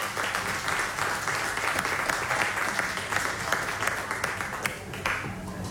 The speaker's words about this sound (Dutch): Nogmaals een warm applaus.